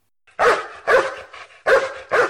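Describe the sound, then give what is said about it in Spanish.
A dog barks four times, loud and sharp, in two quick pairs with a brief pause between them. “Los oídos me sirven para escuchar al perro ladrar.”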